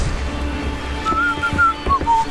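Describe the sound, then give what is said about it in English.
A person whistles a few short, high, clear notes in quick succession over a steady low rumble, the tones coming in brief separate bursts rather than a continuous tune. “You were whistling. Whistling's bad luck. Turns the wind against us.”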